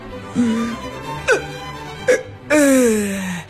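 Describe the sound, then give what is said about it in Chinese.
A giant whale burp sound effect: three short, low groaning bursts, then one long, loud burp that slides downward in pitch before cutting off. “一个巨大的嗝，声音响得整个大海都能听得到。”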